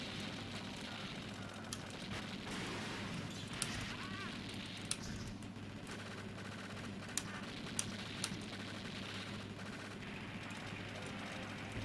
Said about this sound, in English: Rocket launcher.